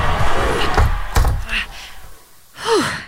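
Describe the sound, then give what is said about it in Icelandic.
A window being shut, heard as two sharp, loud thuds close together near the start over a steady background of noise. A fainter, brief rustle or breathy sound follows near the end. “Ég er að loka glugganum.”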